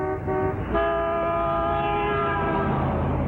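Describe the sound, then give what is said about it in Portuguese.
Car horn honking on a faulty car: a short blast, a brief break, then a long, loud, sustained blare with a steady pitch. “A única coisa que funciona é a droga da buzina.”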